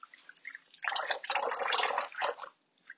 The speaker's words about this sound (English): Here I am washing my hands just for those years.